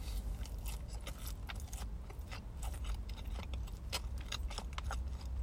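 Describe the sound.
Biting and chewing on a Lawson vegetable-mix sandwich of soft bread layered with egg and ham. Many faint, crisp clicks and mouth sounds sit over a low, steady rumble.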